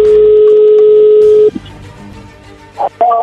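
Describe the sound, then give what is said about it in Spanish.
A telephone number is being dialed on a keypad. A steady dial tone holds for about a second and a half, then cuts off, and after a short quiet pause a few brief, loud keypad beeps follow. “ahí se está marcando”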